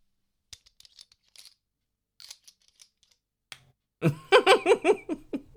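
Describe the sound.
A pen clicks on and off in scattered, faint, sharp clicks, some in quick pairs, before a louder rhythmic voice takes over at the end.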